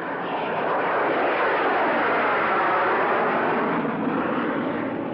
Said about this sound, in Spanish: el avión gana altura.